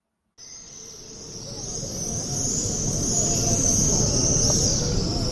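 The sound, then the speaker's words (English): Swifts returning to nest near the Western Wall fill the air with a steady, shrill, high-pitched screaming. It starts suddenly, grows slightly louder over the first seconds, and sits over a constant low background rumble. “Swifts returning to nest near the Western Wall.”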